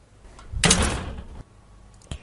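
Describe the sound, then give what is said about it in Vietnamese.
A door swings shut with a broad, full thud lasting under a second, followed after a pause by a single short click of the lock; no talk. “Ninh Dương không đủ can đảm để nghe tiếp câu chuyện nữa, khóa trái cửa lại, lặng lẽ quay về giường.”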